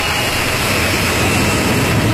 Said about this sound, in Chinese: 国产大飞机一飞冲天。